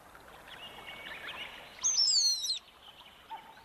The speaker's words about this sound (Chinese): 这一天，整座小山兴奋地沸腾起来，到处叽叽喳喳，此起彼落。